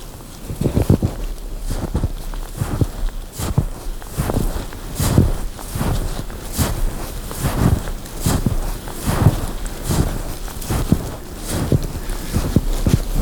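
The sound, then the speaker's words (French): Footsteps of someone walking through snow, a steady, even rhythm of many soft crunching steps over a constant background hiss. “Vous marchez.”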